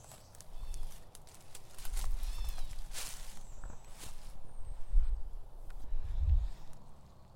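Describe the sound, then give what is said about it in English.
Footsteps walking through mud on a wooded trail, a run of soft, heavy, squelching steps at an uneven pace, some louder than others, with no talking. “I'll walk through the mud from here.”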